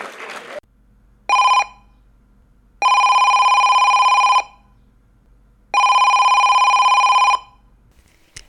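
Telephone ringing for an incoming call: one short electronic ring burst followed by two long, steady ring tones with even gaps between them, loud and clear on their own.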